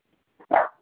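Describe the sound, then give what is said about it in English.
A dog gives one short, loud bark, preceded by a faint, softer huff, heard alone with no talking. “Stop barking.”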